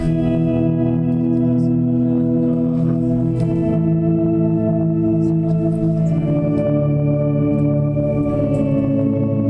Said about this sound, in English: if I put a little bit of reverb on that, you can actually make it sound a little bit organ-like.